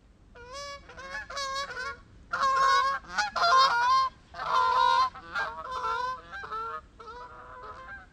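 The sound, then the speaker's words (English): Canada goose honking, a long run of loud, nasal, brassy calls delivered in clustered bursts with short gaps between them, and no voices. “Canada goose.”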